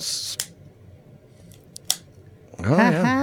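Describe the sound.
A cigar being cut with a cutter: two crisp snipping clicks separated by a pause, followed by a man's voice.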